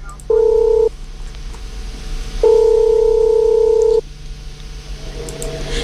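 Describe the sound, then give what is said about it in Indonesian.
Telephone line tones while calling someone: two steady electronic tones, a short one followed by a longer one, with quiet noise between them and no voices. “Kita coba dulu ya menghubungi Ibu Betty Christina, Ibu Ina siang hari ini. Semoga langsung diangkat ya teleponnya.”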